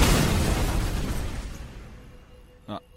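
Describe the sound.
A locked door is broken open with a loud crashing impact that slowly fades over a couple of seconds, followed by one brief, sharp knock near the end.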